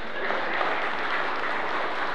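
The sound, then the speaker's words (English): Applause from a crowd, a dense, even wash of clapping that stays at steady moderate loudness throughout with no clear pauses. “Will you guys give them a round of applause?”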